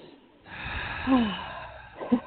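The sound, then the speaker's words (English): Several people draw a deep breath together, a long, airy inhale lasting over a second, followed by a couple of brief, louder breathy puffs at the end. “Let's all three take a breath together. Everyone take a breath.”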